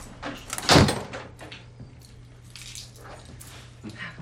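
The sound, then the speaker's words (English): A door opens into a dimly lit, cluttered room with one sharp, loud clunk, then quieter rustling and creaking over a low, steady hum. “Now the door opens to a dimly lit, cluttered room.”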